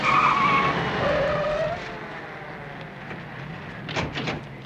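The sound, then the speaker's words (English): Tires screech loudly as two police cars race up to a curb. A sharp skid squeal opens the sound and drops in pitch, then settles into a lower, steady vehicle rumble that slowly fades. “Two police cars race up to the curb.”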